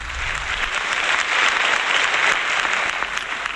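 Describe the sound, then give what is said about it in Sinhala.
Audience applause welcoming a veteran singer onto a concert stage: dense, steady clapping from a crowd that holds at an even loudness throughout. “ප්‍රවීණ ගායන ශිල්පී විශාරද එඩ්වඩ් චයිකොඩි ශූරින්ට වේදිකාවට අපි සියලු දෙනාම හොඳ අත්පොසම් ප්‍රසාදයක් එකතු කරමු.”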